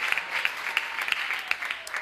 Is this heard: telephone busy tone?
no